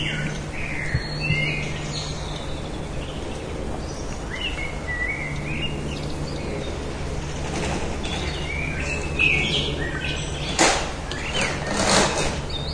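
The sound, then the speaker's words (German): Small birds singing in the evening, with scattered high chirps and short tweets, fairly faint, over a steady low hum and soft background noise. “Nur die Vögelchen singen noch.”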